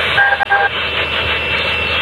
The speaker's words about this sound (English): I'm driving back home, so I'm on the highway. The free highway.